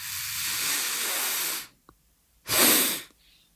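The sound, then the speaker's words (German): Long inhalations through the nose as part of a breathing exercise: two steady, airy hissing breaths, the first lasting over a second and a half and the second shorter and stronger, with a faint click between them. “Ich atme durch die Nase ein.”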